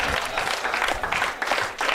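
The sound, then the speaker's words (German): Applause from a comedy audience after a meal, many hands clapping in a somewhat uneven wash with small surges and dips in loudness. “Jetzt habt ihr so viel gegessen, ihr kriegt es ja nicht einmal zusammen zu klatschen, oder was?”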